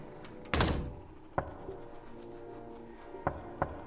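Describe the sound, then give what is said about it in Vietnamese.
Knocking on a door at night, sharp and harsh: one loud, heavy knock is followed by three lighter, irregularly spaced raps against faint background hiss. “Tiếng gõ cửa vang lên trong màn đêm. Cái tiếng gõ cửa nghe đến rùng rợn, đanh gắt.”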